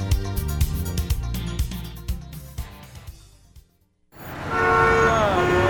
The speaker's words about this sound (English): Do you hear that? That's the sound of a city that's back in business.